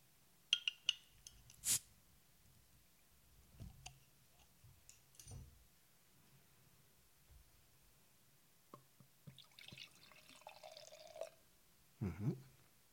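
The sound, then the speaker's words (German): A bottle of strong stout beer is opened: sparse clicks and glassy clinks, a sharp snap early on, then a soft fizzing hiss and a final brief clatter, all fairly quiet with long pauses. “Ja, dann mache ich die Flasche mal auf.”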